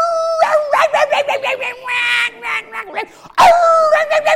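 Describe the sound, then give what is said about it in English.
A dog shut in a crate in a garage yips, whines and howls in a loud rapid series of high, wavering cries, with a few longer drawn-out wails and a brief pause before a final burst. “that stinking dog in the garage, in the crate, hears you scratch your nose. And she decides it's time for me to get out of this crate. So she starts,”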